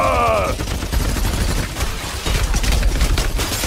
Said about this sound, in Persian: آماده شلیک. شلیک کنید. آتش.